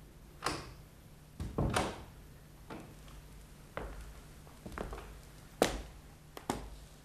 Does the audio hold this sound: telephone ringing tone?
no

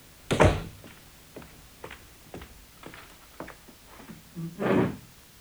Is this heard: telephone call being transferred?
no

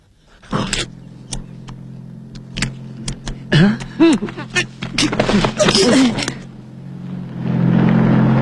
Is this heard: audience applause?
no

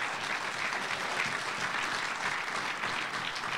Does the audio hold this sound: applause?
yes

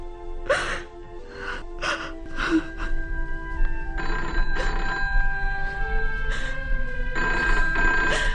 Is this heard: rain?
no

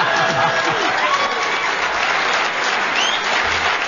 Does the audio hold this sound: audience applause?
yes

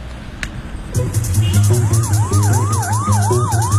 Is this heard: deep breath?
no

